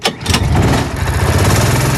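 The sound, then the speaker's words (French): An adult go-kart engine starts at a leisure karting track. A brief burst gives way to a loud, steady, buzzing rattle of a small engine running. “Ça, c'est le bruit du moteur à l'allumage d'un karting adulte à partir de 14 ans.”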